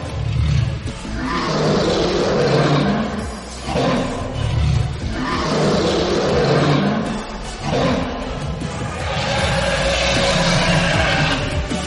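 A fierce dragon roaring, a deep, growling roar that stays loud through the whole clip and rolls in several swells with brief dips between them.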